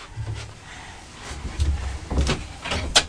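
An airing cupboard door opening or closing, heard as a few soft, low thuds and muffled knocks against a quiet, hissy background.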